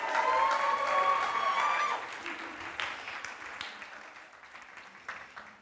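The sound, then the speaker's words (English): A church audience applauds to welcome visitors on a campus weekend, a steady mass of clapping that slowly thins and fades over several seconds. “Let's give them a hand one more time.”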